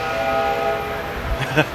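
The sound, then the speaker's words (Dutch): A model train that runs around the shops at a former station pulls away, with a steady mechanical hum and a couple of brief tonal bursts near the end. “Kijk, de trein die vertrekt weer.”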